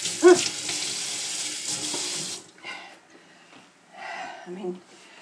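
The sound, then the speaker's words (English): A kitchen tap runs as hands are washed under it: a steady hiss of flowing water for a couple of seconds, which then stops and gives way to talking. “Let me get wash my hands. I'm in the kitchen.”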